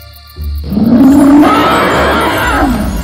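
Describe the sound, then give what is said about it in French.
A dragon in a cave lets out a loud, deep roar that surges in abruptly, holds with a rough, growling rumble, then eases slightly toward the end, with nothing else heard alongside it. “car le dragon ouvrit ses yeux féroces et leva la tête. Voyant les deux hommes, il rugit bruyamment.”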